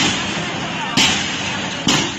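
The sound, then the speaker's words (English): Two sharp bangs from flash grenades fired by police clearing the streets outside a hospital in Yangon, each a sudden loud burst about a second apart over a continuous rushing background noise. “Here are police outside one hospital in Yangon, clearing the streets with flash grenades.”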